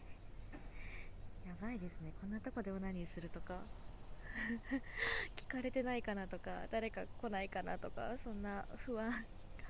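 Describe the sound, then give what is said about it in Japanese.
Cicadas droning in a park in a residential area, a thin, continuous high buzz running beneath close, quiet talking that continues throughout. “結構セミの声とか聞こえてて、”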